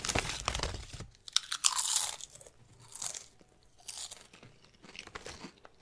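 Crunching and chewing of pickle-flavored chips with dill and salt-and-vinegar seasoning, a run of many sharp, crisp crunches in irregular bursts that rise and fade between bites.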